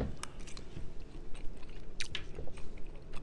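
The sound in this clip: Someone quietly chews a bite of shepherd's pie stuffed potato. Soft, irregular mouth sounds are broken by a few crisp crunchy clicks, and no one speaks.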